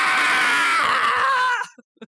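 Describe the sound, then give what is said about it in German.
A woman's sustained, high scream used as music holds for about one and a half seconds, its pitch dipping slightly before it cuts off abruptly, followed by a few brief faint sounds. “Und die Musik, die hier läuft, ist tatsächlich einfach nur das Schreien einer Frau”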